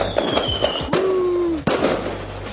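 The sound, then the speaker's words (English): Fireworks go off with high whistling streaks that drift downward, punctuated by two sharp bangs. Scattered crackling pops continue underneath. “Firework time.”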